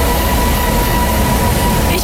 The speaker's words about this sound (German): Der Schlesi ist der quietschendste Bahnhof von ganz Berlin. Vielleicht, weil er in einer Kurve liegt.